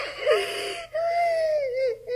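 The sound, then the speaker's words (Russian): A girl cries in high, wavering sobs: a short whimpering cry, a brief pause, then a long drawn-out moaning wail, fairly loud. “Не плачь, не плачь.”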